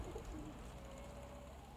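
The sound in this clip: Pigeons cooing near a rooftop: soft, low, throaty coos heard faintly over a steady background hiss.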